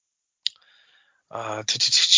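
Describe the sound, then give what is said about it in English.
Mouse click on a web link: one sharp, dry tick in near silence, then talk begins. “I can click on a link here.”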